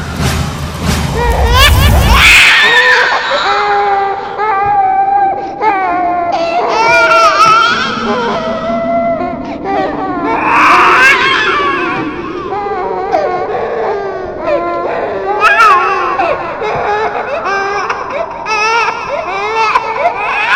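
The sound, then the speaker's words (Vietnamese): A baby cries from the back of a car, a sustained wavering wail that keeps going for about twenty seconds, opening with a low thudding rumble during the first two seconds. “Nhưng vừa bật đài lên lại nghe thấy tiếng trẻ con khóc.”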